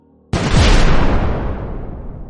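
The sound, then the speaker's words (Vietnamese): An explosive charge detonates against a pair of large doors. The loud blast starts abruptly after a moment of quiet, then a broad rumbling roar slowly fades away. “kích hoạt chốt nổ”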